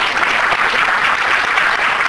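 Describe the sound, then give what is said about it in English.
A church audience gives a hand clap during a sermon. The dense, steady applause is loud and continuous throughout, without pauses or individual claps standing out. “Give that a hand clap.”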